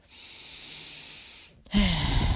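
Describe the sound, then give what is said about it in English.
A long, soft intake of breath lasts about a second and a half, then a brief pause and a sudden louder, breathy burst. “By the way, take a deep breath in.”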